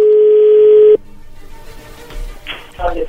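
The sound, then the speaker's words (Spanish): Telephone tone on a call as a number is dialed: a steady, loud, buzzing tone lasts about a second, then cuts off to faint line noise and a few short clicks and bursts. “Bien, ahí se está marcando.”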